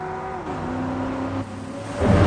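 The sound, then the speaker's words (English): A red car with black stripes speeds along a seafront in Baja, Mexico, kicking up dust. Its engine gives a steady, droning roar whose tone shifts midway, then swells louder near the end, with no voices. “A red car with black stripes speeds along the seafront, kicking up dust.”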